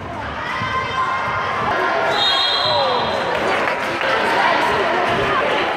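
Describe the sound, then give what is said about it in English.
Loud crowd din at an annual basketball tournament, with basketballs bouncing on the court and shouts rising from the steady roar throughout. “Yes, it is basketball season, and that was the sound of the ICSB annual basketball tournament held last weekend.”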